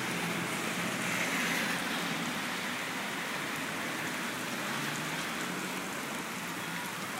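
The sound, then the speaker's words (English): Heavy rain pours down outdoors in a sudden downpour, a dense, even hiss that stays steady and unbroken from start to finish with no voices over it. “Actually pouring out, and everybody's awful wet. Came out of nowhere. Not many people are on the road. A lot of people are walking and running for cover.”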